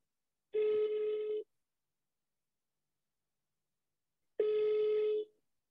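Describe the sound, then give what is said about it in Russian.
A telephone call rings out with two long, buzzing ringback tones, each just under a second, separated by about three seconds of silence. “Давай звонить Маше.”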